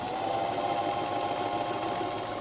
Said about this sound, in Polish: Ustawcie sobie na ściek prosty i włóżcie pod maszynę ten materiał taki, który macie, taki ten wodoodporny.